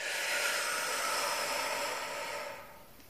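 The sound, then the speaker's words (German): A deep, forceful exhale during a stress-relief breathing exercise: a steady, breathy rush of air that holds for over two seconds, then fades and thins out near the end. “Einfach nur einatmen und ganz fest ausatmen, alles rauslassen.”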